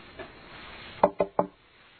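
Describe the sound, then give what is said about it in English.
Three quick knocks on a door, fairly faint and evenly spaced, with nothing else heard around them. “Well, okay, you go with those men. They're going to knock on your door in just a minute. You go with them.”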